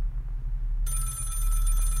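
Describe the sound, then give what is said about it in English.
A telephone bell begins ringing partway through as a rapid, continuous metallic trill over a low steady hum, and it stays loud until the end. “You know, that phone hasn't rung once the whole time the show has been off the air.”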